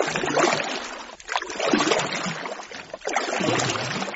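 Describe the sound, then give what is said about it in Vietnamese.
A small wooden boat is poled hard through floodwater, making surging swishes and sloshes of water in three strong pushes, each separated by a brief dip in loudness. “Rồi ra sức chống xuồng đi ồ ồ.”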